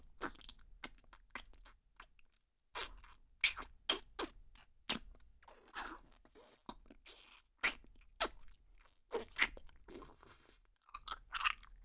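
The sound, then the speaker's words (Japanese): Crunchy chewing and biting of food, with many sharp crunches in an uneven rhythm broken by short pauses, fairly faint and with no talk. “おいしいからどんどん食べちゃうわね。”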